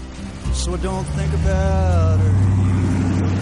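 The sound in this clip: A car engine as the vehicle drives along a wide town street, a steady low rumbling hum that grows slightly louder, with a faint whine above it that shifts in pitch.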